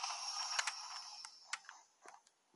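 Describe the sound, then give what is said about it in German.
A chest opens in a video game: a bright, airy shimmer that fades away, overlaid with a few sharp, light clicks and ticks, the last ones growing fainter. “Der hat gerade eine Kiste geöffnet.”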